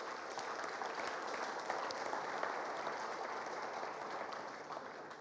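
A church audience applauds the musicians with steady, even clapping that runs unbroken for about five seconds at a moderate, fairly soft level.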